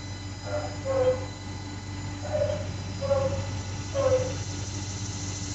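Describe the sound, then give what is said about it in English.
A few faint, spaced dog barks from an elderly dog adopted from a shelter, at a home with a garden, over a steady low hum. “That's our dog Hobbs barking.”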